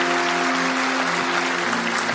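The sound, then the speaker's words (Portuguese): A church audience claps in a dense, steady burst of applause that runs throughout, over sustained musical tones. “Aplauda Jesus onde você está.”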